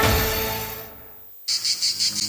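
Summer insects chirping: a fading noisy wash gives way to a brief lull, then a steady run of high, pulsing cricket-like chirps.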